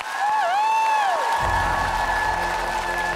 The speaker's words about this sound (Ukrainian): ще раз ваші оплески! Браво, молодець!